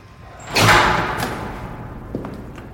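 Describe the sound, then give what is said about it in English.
A door swings shut with a broad, heavy thud that fades slowly into a low rumble, and a small faint click comes a moment later. “As I let go and the door slowly closes”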